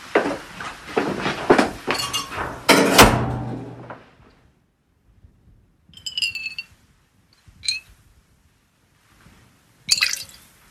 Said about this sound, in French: Là, on verse un peu d'huile essentielle dans le bécher. Et puis comme ça, on va mettre ça dans un petit flacon.